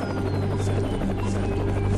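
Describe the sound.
A helicopter flying above and shining a green light drones with a steady low hum and rapid rhythmic blade chop, loud and continuous throughout, with no talk.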